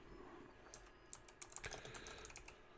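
Faint typing on a computer keyboard, a short burst of several soft key clicks over quiet hiss, with no talk.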